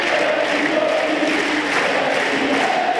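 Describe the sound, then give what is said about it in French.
Crowd at Roland-Garros tennis chanting a player's first name, heard as a dense, steady roar of many voices that holds at an even loudness throughout without breaks. “Le public qui scande le prénom de Kwame, c'est le nouveau tube de Roland-Garros.”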